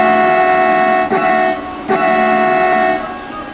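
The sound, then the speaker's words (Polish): Miniature model railway trains run on the tracks of one of Poland's largest model railway layouts, giving a steady harmonic hum with two brief clicks partway through before the sound eases off at the end. “Również te poruszające się po miniaturowych torowiskach. Dlatego odwiedzamy Kolejkowo, jedną z trzech największych w Polsce makiet kolejowych.”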